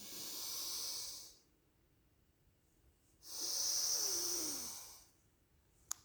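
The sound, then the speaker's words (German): Two breath inhalations in a row during a breathing exercise, with no exhale between them. Two airy, hissing intakes come about two seconds apart, with quiet in between and no talk. “Ihr merkt, ne, zweimal eingeatmet, ohne zwischendurch auszuatmen.”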